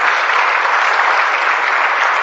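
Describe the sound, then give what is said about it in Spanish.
Applause from an audience at a church sermon: dense, steady clapping that holds at an even, fairly loud level throughout, with no talking over it. “Ponte de pie y dale las gracias a Dios. Den un aplauso al que vive para siempre.”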